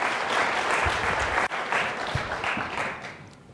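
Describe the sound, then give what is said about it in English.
Audience applause welcoming a lecturer onto the stage before a psychology talk, a dense, steady patter of many hands clapping that thins and fades toward the end. “please join me in welcoming Professor Steven Pinker.”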